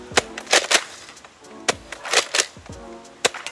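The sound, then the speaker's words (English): A toy blaster that holds ten rounds fires using slam fire, giving sharp, snappy pops in a few quick clusters separated by short pauses. “Let's go fire it. I'm so excited. This actually holds 10 rounds and has slam fire.”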